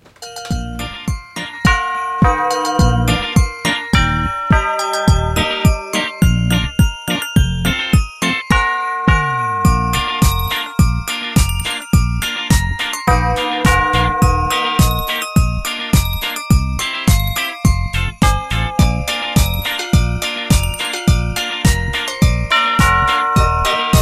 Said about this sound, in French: Donc, comme je vous ai dit, il a des grosses cloches quand même. Hein. Donc voilà, c'était ça les cloches du Père Noël.